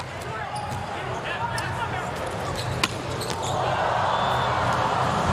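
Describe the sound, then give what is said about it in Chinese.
A volleyball serve at a match between the USA and Poland, the ball struck once by hand with a single sharp smack over a steady, loud crowd din. “是莱万斯基的发球”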